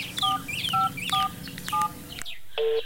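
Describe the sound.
Telephone keypad tones as a number is dialed: several short, bright beeps at a steady pace, then a final higher tone. A low, constant background hum runs underneath.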